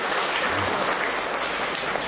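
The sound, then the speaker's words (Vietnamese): Congregation at a Catholic gathering applauding to congratulate a large family, a steady, even wash of clapping hands with no breaks. “Một tràng pháo tay thật lớn để chúng ta chúc mừng đại gia đình này.”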